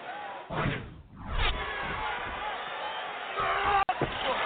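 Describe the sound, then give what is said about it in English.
A wrestler is driven through a table with a running power slam at a wrestling event: a heavy crashing thud and a second impact, set in continuous crowd roar with shouting voices. “Running power slam through the table!”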